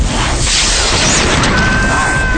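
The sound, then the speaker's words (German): A science-fiction heat ray fires from a rotating disc and sets people aflame: a sustained, loud roar of dense rushing noise, with a thin whistling tone running through its second half. “Der Strahl schoss aus der rotierenden Scheibe und traf den Professor. Ogilvy zerplatzte förmlich. Auch Greg und die anderen wurden erfasst. Die gesamte Gruppe ging blitzartig in Flammen auf.”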